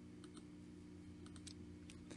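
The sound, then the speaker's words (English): Faint, sparse clicks of a computer mouse selecting an item on screen, a few short sharp ticks scattered in small clusters over a steady low hum, with no voices. “So I'm going to click on that because I want to read and learn more information.”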